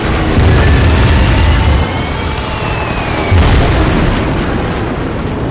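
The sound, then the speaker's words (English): Bombs exploding on the cruiser Yahagi: a loud, continuous deep roar of blasts that swells in two heavier surges, with no voices. “Yahagi is hit by I don't know how many bombs. It's as if it's raining bricks on the poor thing.”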